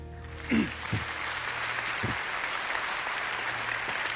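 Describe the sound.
Church audience applause welcoming a pastor: steady, dense clapping that holds at an even level throughout, with a few faint voices near the start.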